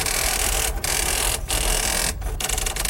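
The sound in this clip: Sonar pickup of the twin propeller screws of a Soviet Typhoon-class submarine: dense, continuous mechanical churning with a fast steady pulse and a few brief dips.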